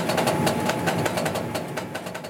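A printing machine runs, turning a paper roll into colour A4 documents, with a loud, continuous mechanical clatter built from fast, regular pulses that keep an even rhythm.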